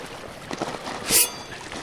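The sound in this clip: A splash of water as a can of feed pellets is swung into a trout pond at a resort ranch in Somerset, Colorado, with muscular trout thrashing; one brief, bright splash stands out mid-clip over faint background wash.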